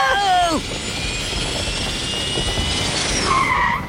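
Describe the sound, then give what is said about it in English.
Turbo thrusters activating with a loud, sustained jet-like rushing roar and a high whine. A voice briefly exclaims at the start and again near the end. “Turbo thrusters, activate!”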